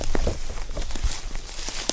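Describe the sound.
Footsteps climb a bank from a road into a mossy spruce-fir forest high in the Appalachians, with irregular crunching and scuffing steps over a steady rustling noise bed.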